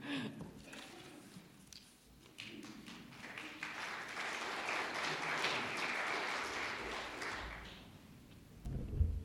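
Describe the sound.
An audience applauds to welcome a speaker. The clapping is dense and keeps up for several seconds before it fades near the end.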